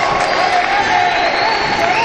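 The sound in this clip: A basketball crowd cheers and roars after a made basket in a Talleres game, a steady loud wash of crowd noise with a commentator's voice running over it.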